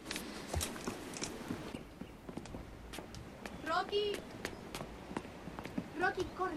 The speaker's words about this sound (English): He walks away. Ines looks at the envelope and sighs. Dignan heads down some steps.